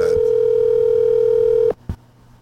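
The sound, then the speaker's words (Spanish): A telephone call tone sounds as someone dials a person. A single steady, mid-pitched tone holds for under two seconds, cuts off abruptly, and is followed by one brief click. “Vamos a llamar a Guillo. Vamos a llamar a Guillo. No digas nada. Si lo coge, debe estar durmiendo.”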